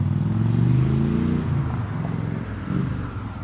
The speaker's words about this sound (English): So he's just running the bike up and down the street to make sure that everything's working, like the brakes and the